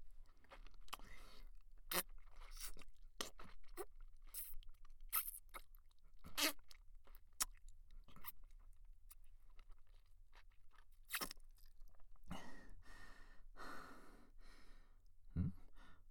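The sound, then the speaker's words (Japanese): Licking and sucking of toes one by one, heard as faint, wet mouth smacks and slurps at an irregular pace, with soft breaths and sighs between them. “おいしい。足の指一本一本しっかり味わうから。”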